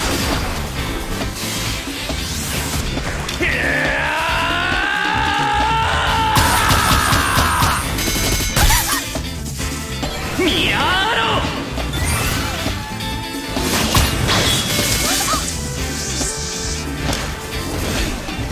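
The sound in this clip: Video game combat with bow attack skills, including a sliding charge and a rapid-fire gatling arrow: loud, continuous crashes, thuds and booming hits mixed with yells and shouting character voices.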